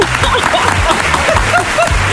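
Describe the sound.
Applause sound effect: a dense, steady crowd clapping that fills the whole stretch at an even loudness, with a faint voice showing through.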